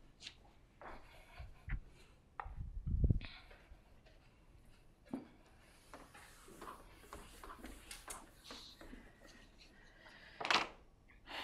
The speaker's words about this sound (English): So let me rewrite now. Where is the eraser?